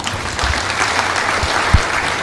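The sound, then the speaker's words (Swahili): Steady applause at an official ceremony with the President present, with many hands clapping in a dense, even wash and a few low thumps scattered through it. “coins mnaziona, makofi tena mengi”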